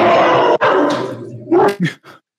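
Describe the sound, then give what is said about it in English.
A dog vocalizing loudly, a strained, harmonic growl-like howl lasting over a second, then a few short yelping barks that trail off into silence. “dog is having an exorcism. Attacking someone.”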